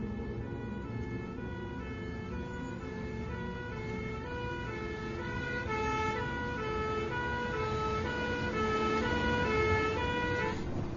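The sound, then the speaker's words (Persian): An ambulance siren wails in stacked, stepping tones that shift at regular intervals over a low road rumble, growing slightly louder toward the end as it approaches. “الان آمبولانس میرسه، دارم میان.”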